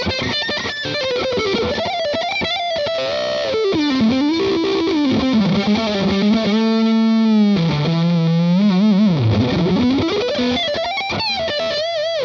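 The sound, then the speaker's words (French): Distorted electric guitar played through a Marshall amp on the neck pickup with gain at full, giving a muddy tone: a loud, continuous lead line of sustained, bent and wavering notes, with no voices. “On entend le côté boueux du Marshall.”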